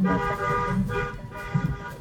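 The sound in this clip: A police patrol car horn honks in one steady, sustained blare over a low rumble, its tone held loud and unbroken through the whole stretch.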